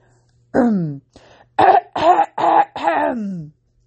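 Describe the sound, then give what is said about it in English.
A man clears his throat in a few voiced, gravelly bursts, a short rasp followed by several quick rough pushes and a longer final one, each loud and separated by brief pauses. “cleared his throat.”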